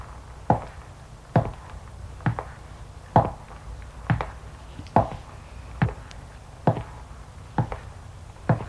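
Footsteps of a woman walking down a corridor: ten evenly spaced, crisp footfalls in a steady, unhurried rhythm, alone against faint background hush.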